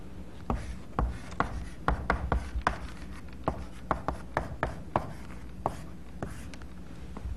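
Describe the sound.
Writing on a board during a lecture produces many short scratchy strokes and taps in an irregular rhythm. They are fairly faint against a low background, with no talk.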